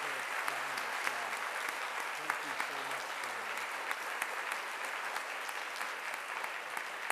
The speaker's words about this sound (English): So I would like to give you another round of applause.